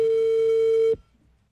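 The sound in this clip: A telephone busy tone after a call is hung up: one steady, mid-pitched electronic beep that holds for about a second, then cuts off abruptly into near silence.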